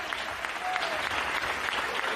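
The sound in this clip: Applause during a church service, a dense, continuous patter of many clapping hands at a steady level from start to end.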